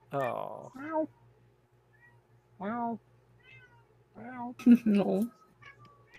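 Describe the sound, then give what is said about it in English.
Cats meow in answer to a person who is meowing in imitation. Several drawn-out, wavering meows come in separate bursts over a faint steady low hum, with a quick cluster of calls near the end. “And my cats are responding to me.”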